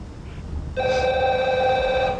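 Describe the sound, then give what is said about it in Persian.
A black telephone rings on an open kitchen counter: after a short quiet moment, a bright, steady electronic ring starts and continues loudly to the end. “محمود به گوشی سیاه روی اوپن آشپزخانه نگاه میکند. الو محمود، تو هنوز خوابی؟ محمود به طرف گوشی میرود.”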